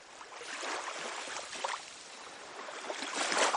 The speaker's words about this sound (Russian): Вы слышите шум волн, ощущаете бьющий в лицо ветер, чувствуете запах моря.